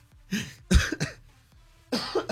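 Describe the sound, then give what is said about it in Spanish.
A few harsh coughs from someone sick with flu and a cough. They come as loud, rough bursts separated by short pauses, with no talk. “Siendo bien malo de la gripe y de la tos.”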